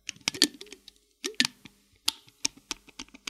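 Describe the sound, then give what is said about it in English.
Plastic video game guitar controllers click and clack as buttons and strum bars are worked, faint irregular bursts of sharp taps with short pauses between clusters. “Oh, that's the sound of the guitar, the plastic guitars. That's their tools of the trade.”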